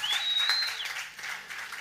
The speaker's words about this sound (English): give Rob a big round of applause